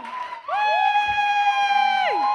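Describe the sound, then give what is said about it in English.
Cheering for a guest walking on at an evening chat show, led by a loud, sustained high-pitched whoop that holds steady and drops off at the end, with crowd noise underneath. “So please put your hands together for writer and actor Abigail Burdett.”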